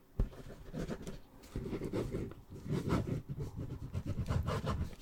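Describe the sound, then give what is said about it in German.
Pen scratching across paper in steady, rustling strokes, written during a whispered roleplay. The scratchy texture runs nearly the whole time as a rapid series of short strokes, with a brief pause between some of them. “Ich schreibe dir das auf, ja?”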